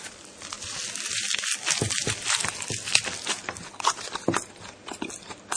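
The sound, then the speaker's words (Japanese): Crisp crunching as someone bites into and chews a rice ball made from freshly cooked rice. Many sharp, crackly bites and chews follow one another in an uneven rhythm at moderate loudness. “炊きたてご飯で作ったおにぎりいただきます。”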